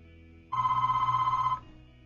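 A telephone rings for an incoming call: a single steady electronic ring lasting about one second, with a slight warble, starting and stopping abruptly over a low background hum.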